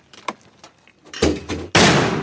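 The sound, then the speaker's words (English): Mortar rounds launched from a metal tube on a tripod during Marine training fire as loud, sharp blasts, and the last and strongest roars on to the end after a fainter earlier thump. “Recently, we watched some Marines train, launching them out of metal tubes set on tripods. When ready, gun one.”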